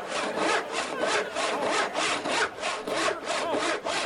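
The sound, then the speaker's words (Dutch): A saw rasps through wood during a stage magic trick of sawing an orphan girl in half. The strokes are loud, rough and evenly rhythmic, with many back-and-forth cuts and no voices. “kijk hem zagen.”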